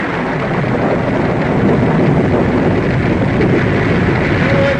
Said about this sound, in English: as the storm breaks around them, the sheriff's posse gathers at Pine Creek Forks